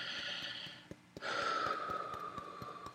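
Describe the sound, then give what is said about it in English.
Deep breaths, two long and airy, are separated by a brief pause. They are faint, with soft regular ticks running beneath. “So the hand, nice deep breath.”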